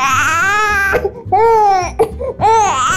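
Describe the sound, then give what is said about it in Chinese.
A baby who had just fallen asleep cries after being put down for a diaper change, letting out three loud, wailing bursts with short, sobbing catches of breath between them. “他刚刚睡着了，然后呢，一把他放下来换尿布，就哭哭了”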